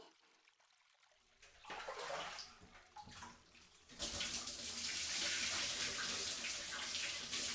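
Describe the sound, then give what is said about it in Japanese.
Water poured to rinse someone's back while bathing: a quiet, irregular trickle and splashing at first, then a steady, louder rush of pouring water that continues to the end. “お背中流していきますね。”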